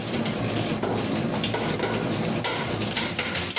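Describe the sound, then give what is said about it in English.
Doughnut dough being kneaded in a mixing bowl, slapping and sticking against the bowl, makes a dense, continuous wet clatter and scraping at a steady loudness, with no separate strokes standing out. “So the sound you're hearing is the dough actually slapping against the bowl. And it sticks a little bit, but it's pretty much formed into a ball.”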